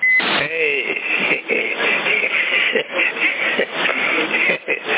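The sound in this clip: Citizens band radio transmission: a narrow, crackly voice runs throughout, opening with a short, high-pitched steady beep.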